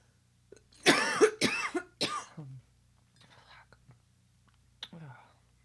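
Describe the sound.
Harsh coughing after a drink went down the wrong way: three loud chesty coughs in quick succession, followed by quieter breathy vocal sounds and a final short cough.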